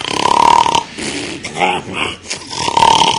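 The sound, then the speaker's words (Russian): A voice imitates the snoring of a sleeper with an open mouth: loud, rough, throaty rasps and snorting grunts in a few uneven bursts, with a buzzing tone at the start and end and no words. “Вот так, представьте. Рот открытый, слюни, храп раздается.”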